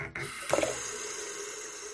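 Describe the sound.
Water runs from a tap as a faint, steady hiss. Just after the flow starts, a few soft splashes are heard, and then the rush continues evenly.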